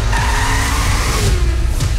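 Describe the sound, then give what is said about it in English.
A car roars loudly with tires squealing in a skid, a continuous harsh screech layered over dense engine and road noise that holds steady for the whole two seconds. “And the first hint was that the car? Yep, you got to guess the person based off that hint.”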